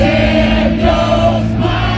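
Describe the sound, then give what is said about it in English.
Roar of a sold-out crowd at a band's stadium concert at Mosaic Stadium. The massed voices form a loud, steady wash with sustained tones running through it. “That, it turns out, is the sound of a sold-out crowd.”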